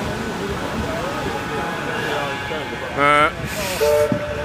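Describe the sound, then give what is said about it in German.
A train passes alongside with a steady rumble and hiss, and brief tonal bursts rise over it near the end. “Oder die Bahn fährt auch weiter hier neben uns. Die bleibt ja auch nicht stehen, ne?”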